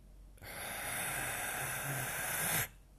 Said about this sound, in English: take a nice deep inhale into the heart space